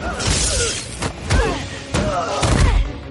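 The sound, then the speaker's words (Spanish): A truck door is swung into a man during a film fight, heard as heavy thuds and bangs in several impacts, with voices between them. “Golpea a un tercero con la puerta de un camión.”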